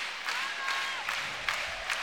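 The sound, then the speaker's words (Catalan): A handball match crowd cheers in a broad, steady roar that swells briefly a few times over the two seconds. “S'anima el públic.”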